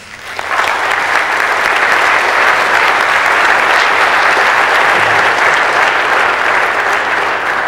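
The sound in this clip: Audience applause welcoming a speaker, quickly swelling within the first half second into loud, dense, sustained clapping that holds evenly to the end.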